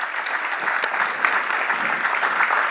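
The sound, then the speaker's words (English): Applause from an audience welcoming a speaker, a physical therapist, as she is introduced: a continuous, even patter of many hands clapping that neither builds nor fades. “would you welcome with me Lisa Meyer? Lisa is, give her a hand.”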